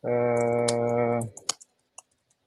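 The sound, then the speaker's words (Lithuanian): Typing comments on a computer keyboard: a few sharp, isolated key clicks that follow a long, steady hum. “paraleliai rašau komentaruose”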